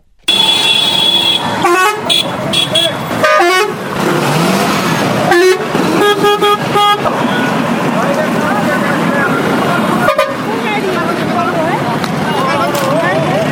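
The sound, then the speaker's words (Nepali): Busy road traffic at Mangalgadhi Chowk near the bus park in Birendranagar, Surkhet, with chaotic roads and haphazard parking. Engines drone steadily while car horns honk repeatedly in short and longer blasts, and voices mix in. “Karnali प्रदेशको राजधानी सुर्खेतको वीरेन्द्रनगर छ मंगलगढ़ी चोक। बस पार्कमा अस्तव्यस्त सड़क र जथाभावी गाड़ी पार्किङका कारण स्थानीय र बाहिरबाट आउने नागरिकले हैरानी खेप्नु परेको छ।”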